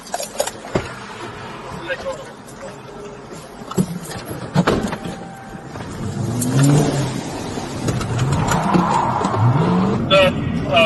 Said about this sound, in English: Damn! Don't drive away!